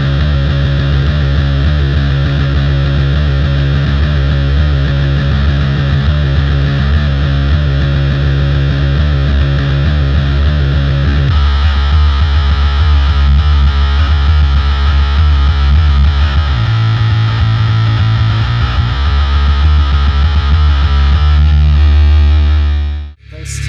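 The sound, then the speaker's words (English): A bass guitar plays chords through an effects rig, heavily distorted and sounding like a guitar, a loud, sustained, droning wall of tone that shifts chords partway through and cuts off abruptly at the end. “The bass sound is not like a classic bass sound, especially on the new album. There are kind of more traditional bass bits, but a lot of it is kind of chords. It sounds like a guitar.”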